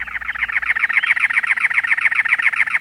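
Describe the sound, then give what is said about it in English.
A cactus wren perched atop a many-lobed cactus in the Arizona desert in late April delivers its song, a long run of rapid, evenly spaced, raspy churring notes that hold a steady pitch and stop abruptly. “A cactus wren sings, perched atop a many lobed cactus.”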